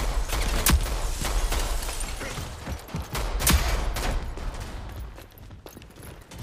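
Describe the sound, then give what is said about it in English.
Sniper gunfire in a multiplayer shooter video game: two sharp, loud shots about three seconds apart over a constant bed of game noise. “We're getting sniped by 2 people.”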